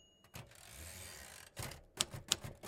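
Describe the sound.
Keys strike on a 1960s Royal typewriter, giving a few sharp, irregular clacks. A longer mechanical rasp comes early, and the faint, clattering strikes grow closer together toward the end.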